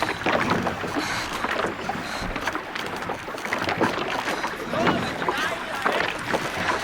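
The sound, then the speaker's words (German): Hurried paddling of a rowboat on a river, a dense, steady wash of splashing water that runs the whole time with no clearly separate strokes. “Paddelt, los, schnell.”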